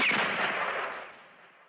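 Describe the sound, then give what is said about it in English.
A single gunshot in a comedy advert, fired by a spy character: one sharp, loud burst whose broad, noisy tail fades away over about a second and a half. “I am Russian spy. So sorry. Now I have to shoot you.”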